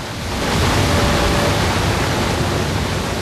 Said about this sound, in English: The truck speeds onto the roof of the concrete building as the tidal wave hits it with all its force. The car park remains standing and the water charges onward and past.